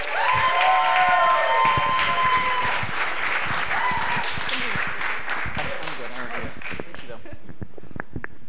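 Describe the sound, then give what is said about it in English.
Audience applause welcomes a pastor speaking at a foster care gathering: dense, sustained clapping fills the whole stretch at a steady loudness, easing slightly toward the end. “So we're so excited to hear from you, Pastor Philip. Let's give him a warm welcome.”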